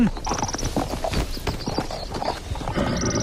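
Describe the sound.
Clip-clop of horse hooves as riders set off on horseback, a busy run of many quick, uneven hoof strikes that continue steadily throughout.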